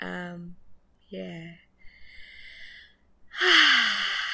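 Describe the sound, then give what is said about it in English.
Deep breaths drawn during a morning gratitude moment: a few short voiced breath sounds and a breathy hiss, ending in a long, loud sighing exhale that falls in pitch. “Big deep gratitude breaths for everything that this morning has held so far.”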